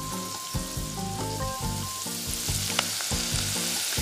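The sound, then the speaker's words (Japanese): Green onions sautéing slowly in plenty of butter for a salmon cream soup: a continuous soft sizzle with light crackles and no voices. “ネギをこう色づかないようにこう茶色くなったりしないようにこうゆっくりとしんなりするまで炒めます”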